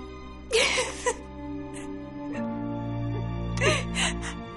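A woman sobs while doing her makeup in front of a bathroom mirror, with a few short, breathy gasps and whimpers over steady, sustained low tones.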